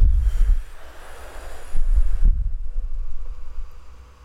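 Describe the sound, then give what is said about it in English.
A group of people inhale and exhale together, a breathy rushing noise that swells loudly at the start, dips, surges again near the middle and then slowly fades, with no talking. “Inhale. Charge your breath. And exhale together.”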